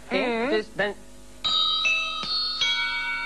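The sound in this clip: A church bell strikes four o'clock, four ringing strokes with sustained tones that follow a brief burst of voice at the start.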